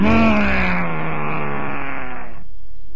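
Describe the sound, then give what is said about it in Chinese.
A voice imitates a tiger crying out after a hammer blow to its head: a single loud, strained, drawn-out groaning roar lasting over two seconds. Its pitch sags slightly before the cry cuts off abruptly. “老虎叫着一迷糊，叫了一声，”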